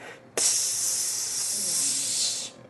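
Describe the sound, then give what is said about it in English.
Faint high-pressure hissing aboard a station: a steady, airy hiss that starts abruptly, holds evenly for about two seconds, then fades out. “a kind of faint hissing sound, like a high-pressured”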